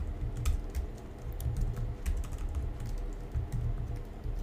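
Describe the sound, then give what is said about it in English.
Typing on a computer keyboard while filling in a web form: many quick, irregular keystrokes and clicks in uneven bursts, moderately loud, with no voices. “inside the form I'm going to type, tell me about yourself.”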